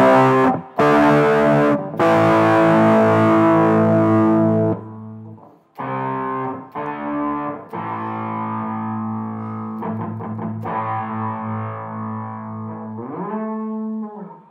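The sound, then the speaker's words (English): Dry synth tones without reverberation sound flat and buzzy, with distorted harmonics. A series of sustained notes is separated by brief gaps, and a gliding pitch bend comes near the end. “Try to listen for it without reverberation. It sounds without volume, like flat synth.”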